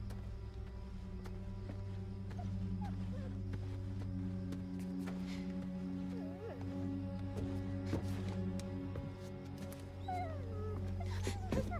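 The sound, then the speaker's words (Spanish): A dog whimpers, with a few faint whines and yips rising over a steady low droning hum. The soft calls come and go briefly. “Lleve al perro atrás. Solo es un perro.”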